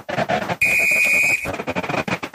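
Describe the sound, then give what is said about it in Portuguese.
A referee's whistle sounds at a football match between Palmeiras and Cerro Porteño, one sustained, steady high-pitched blast lasting under a second, cutting through a dense, continuous wash of background noise. “apita o árbitro”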